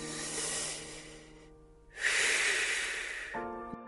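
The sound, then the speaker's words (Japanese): Long, deep breaths in a relaxation exercise for eyes tired from a day at a computer: two extended, airy rushes of breath, the second louder and more forceful, with a short pause between them. “まずはですね、数回、長く深く、呼吸をします。”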